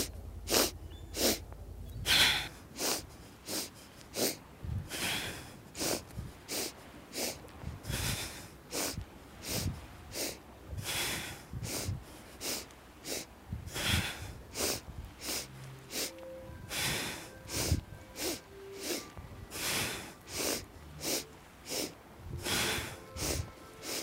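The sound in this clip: Forceful breathing during an exercise routine: many sharp, sniffing nasal bursts repeat in regular cycles. Each cycle is three short inhales followed by an exhale, loud and breathy, with no talking over them.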